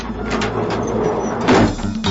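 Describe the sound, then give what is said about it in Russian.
A door is opened with a short run of scraping, rattling noise and a louder burst midway, heard alone with no talk. “И хоть помнил принц Ульяний, что есть правило незнакомым людям дверь не открывать, все равно пошел и открыл.”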